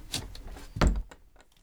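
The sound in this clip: A large wardrobe door being closed: a brief scraping sound, then one solid, low thud, followed by a few faint clicks as it settles.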